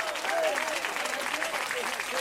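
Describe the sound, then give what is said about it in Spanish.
A church audience applauds during a Spanish-language service, dense, continuous clapping that holds at an even level throughout. “¿Cuántos alaban al Cristo de la gloria? Después que ese aplauso sea para Dios.”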